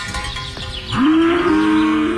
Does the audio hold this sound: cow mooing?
yes